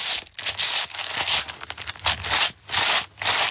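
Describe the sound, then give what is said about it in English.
Playing cards being shuffled, heard as a run of short, bright rustling and riffling bursts with brief gaps between them, moderately loud with no voices. “Those are supposed to be some cards being shuffled. Cards being shuffled.”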